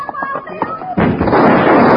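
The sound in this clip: Gunshot in a Western shootout with bank robbers: a voice is heard first, then a sudden loud blast about halfway through, followed by sustained, dense noise until the end.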